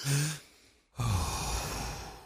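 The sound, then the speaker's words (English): Forceful breathing during a guided fast-breathing exercise: one short sharp intake, a brief near-silent pause, then a long rushing breath that fills the rest, loud and airy with no talk. “Breathe in. Breathe out. Go with the flow. It's very fast.”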